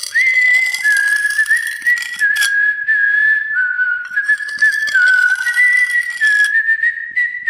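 A person whistling an eerie melody, a clear, loud, slowly wavering tone that drifts between close notes with brief breaths between phrases, heard alone.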